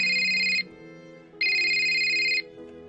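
A telephone ringtone sounds as a man calls his wife. Two bursts of bright electronic ringing with a quiet gap between them are heard on their own at a fairly faint level.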